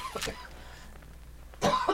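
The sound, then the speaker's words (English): A person coughing: a short burst early on, then a pause and a louder, harsher bout near the end. “at first I need to cough, but I'm going to try to get through this without, I have to cough.”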